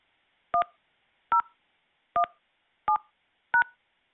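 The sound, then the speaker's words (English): Five short telephone keypad tones enter a new voicemail password. Each is a crisp two-note beep, evenly spaced with silence between, and no voices are present. “Enter the new password between 4 to 7 digits, then press pound.”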